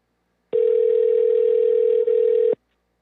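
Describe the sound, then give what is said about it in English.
Ringback tone while calling a landline home phone: one steady, mid-pitched electronic tone lasting about two seconds, then silence. “Looks like his, his landline's actually ringing.”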